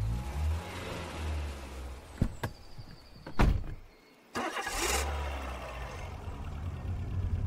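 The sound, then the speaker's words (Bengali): A car drives away: a steady low engine rumble with a couple of sharp door-like thunks, and a brief drop in the drone before the engine noise returns. “বিজ্ঞানী চন্দ্রকান্ত একটাও কথা না বলে গাড়ি নিয়ে উধাও হয়ে গেলেন”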